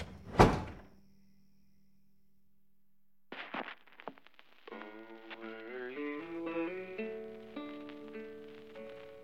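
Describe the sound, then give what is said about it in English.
A front door closes with a single heavy thud at the start, leaving a faint low hum; a few seconds later, music begins playing and continues to the end. “As he paces, she comes through the door and closes it.”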